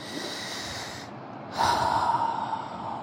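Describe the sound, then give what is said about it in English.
A slow, deep breath taken during a guided relaxation exercise, a soft airy rush of breath that swells louder in its second half, with no talk over it. “Relax your whole body. Take a deep breath.”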